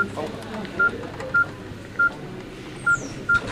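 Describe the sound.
Telephone keypad tones as a number is redialed after the first call went straight to voicemail: five short, identical beeps at an uneven pace over faint background noise.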